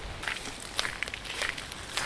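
Soft footsteps walk around behind a Greek restaurant, a flat building ringed by a large hedge at the edge of a forest on the outskirts of Hamburg. Many light, irregular scuffing steps with faint crackles sound alone, without speech.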